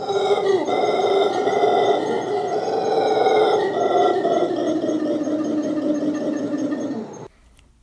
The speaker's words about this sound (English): Howler monkeys are famous for their loud howls, which was the mystery sound.